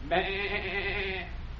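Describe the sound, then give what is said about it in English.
A person imitates a sheep's bleat as a secret signal, a single sustained nasal "baa" at a steady pitch lasting about a second, then quiet. “Now, we'll slide out and give the sheep signal.”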